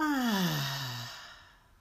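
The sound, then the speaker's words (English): A long, audible sighing exhale during a guided deep-breathing exercise after breathing in through the nose. The voiced breath starts fairly strong, slides steadily downward in pitch and fades away alone. “So just breathe in through your nose, hold, and exhale.”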